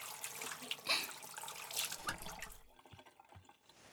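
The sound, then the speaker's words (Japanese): Running tap water as a child's hands are washed under it, a steady splashing trickle with small drips and splatters that drops to a quieter dribble near the end. “じゃあ、洗っていこうね。ジャバジャバ、ジャバジャバ、ジャバジャバ。”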